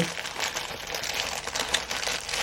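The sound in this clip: Plastic foil packaging being torn open during unpacking: a dense, continuous crinkling and rustling of thin plastic, bright and steady, with small irregular crackles throughout.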